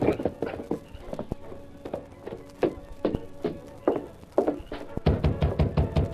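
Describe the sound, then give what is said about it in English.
Hoofbeats of the Lone Ranger's horse, Silver, riding, a sound effect of many sharp knocking strikes in a steady galloping rhythm that grows heavier and denser toward the end. “The Lone Ranger then rode to camp, donned his mask and familiar clothes, and rode to the home of a leading citizen named Jack Lambert.”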